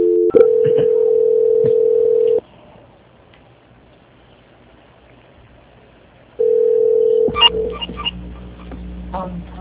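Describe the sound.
Telephone tone during a call transfer: a loud, steady single-pitch tone for about two seconds, a pause of near silence, the same tone again briefly, then clicks and line noise as the call connects.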